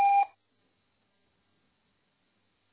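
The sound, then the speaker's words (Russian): A voicemail recording beep gives one short, clear electronic tone at the very start, followed by silence. “Оставьте сообщение после сигнала.”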